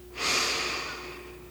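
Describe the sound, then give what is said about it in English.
A single deep breath drawn in, a steady airy hiss that swells quickly and then slowly fades, with a faint steady hum underneath. “I'd like to invite you to take a few deep breaths. In.”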